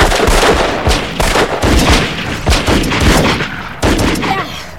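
Gunfire from several guns: dense, overlapping shots roll into a nearly continuous loud roar, with a few brief dips between volleys.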